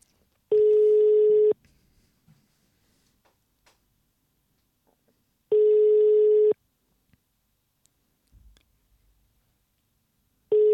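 Ringing tone of an outgoing Messenger call: three steady, even electronic tones about one second long, spaced roughly five seconds apart, the last one cut off, with near-silence between them.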